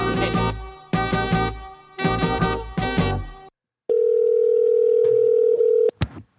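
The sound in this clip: Telephone dial tone while placing a call: a steady, loud, even tone holds for about two seconds, preceded by a few loud tonal bursts and cut off by a sharp click.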